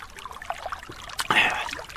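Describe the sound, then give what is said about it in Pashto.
A short trickle of sweet water followed by a brief wet sip. The sounds are soft and quick over faint background noise. “دا خوږې اوبه هم ورپسې وغړپه وه”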